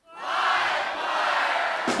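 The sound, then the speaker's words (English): A live audience at Revolution Hall in Portland, Oregon, erupts in loud cheering and shouting. The roar swells within a fraction of a second and holds as a dense, sustained wall of crowd noise. “Recorded in front of a live audience at Revolution Hall in Portland, Oregon”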